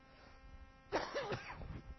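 A short cough or throat-clear from someone with a throat tickle: one brief, rough, partly voiced burst that stands out faintly against quiet background noise.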